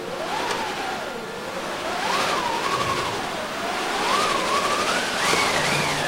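A hand-cranked wind machine in an opera orchestra, played by a percussionist for a Malmö Opera staging of The Flying Dutchman storm scene, gives a steady howling whoosh. It rises and falls in pitch in slow waves and ends on a higher swell.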